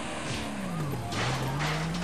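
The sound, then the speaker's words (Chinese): A car's engine revs hard while its tires screech, skidding around a street corner. The sound is a continuous loud roar with a low whining tone that dips and then climbs back up. “在他的逼迫下，司机不断轰着油门提高车速，轮胎在地面上擦出刺耳的声响，打着旋飘过了街口。”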